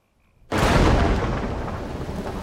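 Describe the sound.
Heavy rain storm bursts in abruptly and settles into a loud, dense, steady hiss that continues to the end without letting up.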